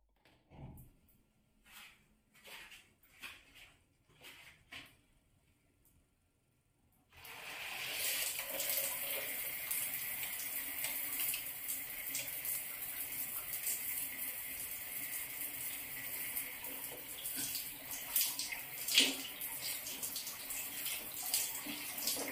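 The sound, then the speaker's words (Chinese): Running water for a shower starts after a few soft clatters and then pours steadily as an even, bright hiss that continues unbroken to the end. “我去洗澡啦”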